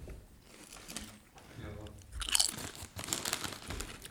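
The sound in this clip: Crisp crunching of potato chips being bitten and chewed, a few short crunches over quiet murmuring voices as people talk while eating.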